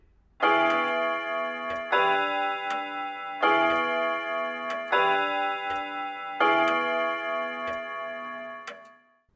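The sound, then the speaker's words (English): A clock ticking on its own: regular ticks with a bright, ringing, tonal resonance that repeats in steady cycles and then fades out at the end. “Clock number one. Clock number two.”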